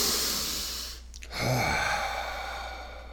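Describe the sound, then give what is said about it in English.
One deep breath, heard as a long breathy sigh, stands out over a steady background hiss; nobody speaks. “I do need some exercise. I need to get some deep breaths in.”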